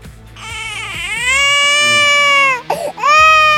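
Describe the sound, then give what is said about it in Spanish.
A baby cries in a long, loud, high wail, breaks off briefly with a catching breath, then starts crying again. “¿Por qué lloras, bebé? Así que, ¿por qué llora el niño?”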